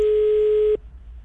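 A telephone call tone, one steady mid-pitched tone held for under a second that cuts off abruptly, leaving faint line hiss.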